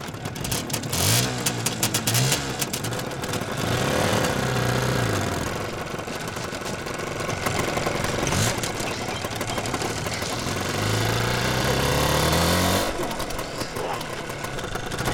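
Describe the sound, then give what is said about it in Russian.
A motorcycle rides off down a road, its engine loud and rough and revving repeatedly, with the pitch climbing during each burst of acceleration. “Сели на мотоцикл и отправились по дороге.”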